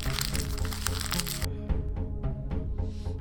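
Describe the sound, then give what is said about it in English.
Paper crinkling and tearing as an envelope is opened for a winner announcement, with a dense, noisy wash for the first half, then sparser crackles and rustles. “Let's get this envelope here.”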